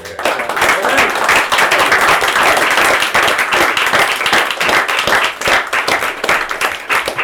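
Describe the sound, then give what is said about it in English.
Audience applause at a live storytelling evening: a loud, dense, continuous wash of many hands clapping, with crowd voices mixed in throughout and slight dips in intensity toward the end. “Well, we'll give John a round of applause.”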